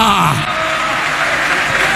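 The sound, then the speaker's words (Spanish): An audience applauds during a church service: a thick, steady clatter of many hands clapping, with voices calling out over it at the start. “De nuevo el aplauso al que vive para siempre.”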